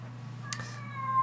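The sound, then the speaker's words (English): A cat meows in a drawn-out, harsh, harmonic cry that rises out of a steady low hum, with a brief broad burst partway through. “do you hear that thing? That's my cat. Listen.”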